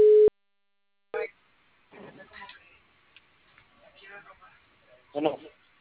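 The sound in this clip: A short, loud, steady electronic telephone tone sounds once as a phone call drops. After a pause, people talk in quiet, broken speech.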